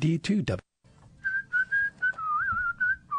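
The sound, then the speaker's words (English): A person whistling a wavering, sustained tune of several held notes. Brief talk comes just before, then the whistling continues alone and fairly quietly. “Oh, I'm not supposed to whistle. I'm sorry. No, they really gave me a notice to don't whistle on the air.”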